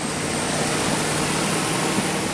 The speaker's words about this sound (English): And swiftly, a 240 horsepower caterpillar bulldozer drags the log, racking the trees along the way.